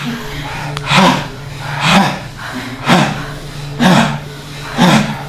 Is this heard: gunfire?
no